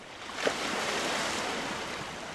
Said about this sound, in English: Najia Batalova stands by the Crimean shore near her home in the Black Sea port of Kerch.